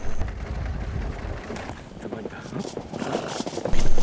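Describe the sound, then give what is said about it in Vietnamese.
Horses and foals running while nomads chase them, with rough, irregular hoofbeats mixed into heavy wind buffeting the microphone, the rumble easing midway and swelling again toward the end. “Nhóm du mục đang đuổi theo những con ngựa. Họ đuổi theo ngựa mẹ và ngựa con cũng chạy theo.”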